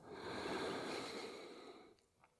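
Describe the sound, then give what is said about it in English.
A deep, full breath drawn in through the nose during a guided breathing exercise, a soft, steady airy rush lasting about two seconds that fades out, faint and without talk. “We're going to take that deep, full breath in through the nose.”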